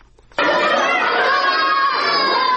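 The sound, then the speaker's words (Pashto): Children shout and play during a short mid-morning school recess. A dense, loud crowd of young voices bursts in after a brief quiet start and carries on steadily to the end. “د ورځې لس بجې دي، ماشومان هم د تفریح په دې څو دقیقیز وخت کې لوبې کوي.”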